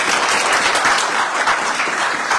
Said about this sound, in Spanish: Los aplausos, por favor.